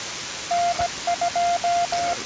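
An automatic station identification signal on an amateur radio system. A steady mid-pitched tone beeps in a Morse-like string of long and short pulses over a faint hiss.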